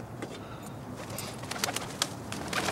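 Pigeons coo faintly at a building under construction, with soft intermittent bird sounds and light scattered clicks over a low, quiet background.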